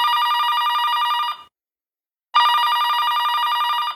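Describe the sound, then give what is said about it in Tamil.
A telephone rings as a father calls his daughter: two long bursts of bright, trilling electronic ringing, separated by about a second of silence, loud and alone. “Evening college முடியுது. அபிராமியோட அப்பா அவளுக்கு கால் பண்றாங்க.”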